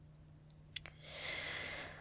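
A wrapped gift is being unwrapped: a few light, sharp clicks come first, then about a second of soft, steady crinkling and rustling of wrapping paper.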